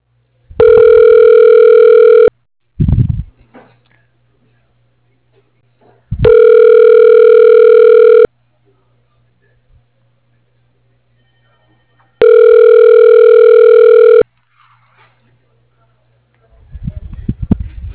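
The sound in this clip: Telephone ringback tone as an automated system connects a call: three evenly spaced, loud, steady tonal rings about two seconds each, separated by quiet gaps with brief clicks and rustles.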